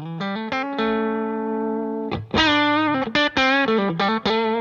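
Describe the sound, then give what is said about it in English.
A Les Paul Junior electric guitar with a distorted, effects-laden tone, opening with a few notes and a long sustained one, then a quick run of punchy, bright notes with a twangy edge. “I feel like the Junior is a mix between a classic Les Paul and a Telecaster, because you have a kind of twang in the sound.”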